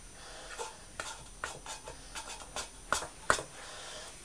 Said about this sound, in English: I'm just folding up these blankets.